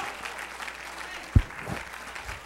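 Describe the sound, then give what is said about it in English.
A church audience claps hands during a sermon, a soft, steady patter of many hands with one brief low thump partway through. “Let's clap our hands into him and bless his name.”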